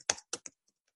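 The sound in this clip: Computer keyboard typing for a chat message: three quick, crisp key clicks in a burst, then a few very faint taps trailing off.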